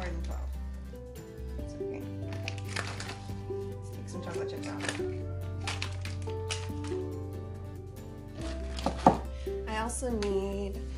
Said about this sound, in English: unsweetened chocolate chopped fine. So I'll go ahead and get that all chopped up and I'll add it to my bowl of chocolate.